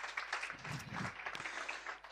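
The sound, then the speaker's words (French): Faint applause in a hall during a morning church gathering encourages a helper. A soft, steady patter of clapping continues for about two seconds. “Est-ce qu'on peut applaudir Thibault, il va travailler ce matin? Est-ce qu'on peut l'encourager ce matin?”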